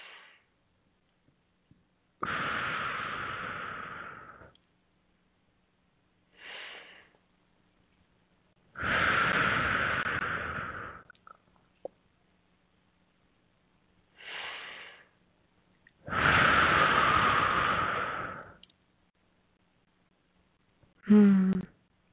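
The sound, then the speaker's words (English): Slow, deep breathing, in through the nose and out through the mouth: about three cycles, each a soft, short inhale followed by a longer, louder whooshing exhale, with silent pauses between. “nice deep breaths in through the nose and out through the mouth”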